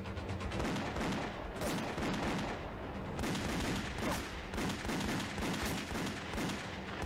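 Rapid gunfire with many sharp shots in dense, overlapping bursts, sustained and loud throughout with no talk.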